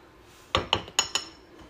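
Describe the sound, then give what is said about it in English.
A spoon clinks against a bowl while stirring chocolate frosting, giving four bright, sharp taps in quick succession with no voices. “Yes, I'm gonna mix it around so you don't have like frosting on top and then the chocolate on the bottom,”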